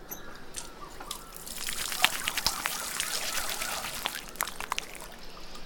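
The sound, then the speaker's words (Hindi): Water trickles and splashes continuously as hands are washed with soap, making a steady wet, bubbling flow of moderate loudness with small splashy peaks. “हम साबुन से हाथ धोकर आते हैं”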